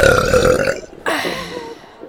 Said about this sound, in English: That one felt really good. I hope my burping doesn't bother you, because there's plenty more where that came from.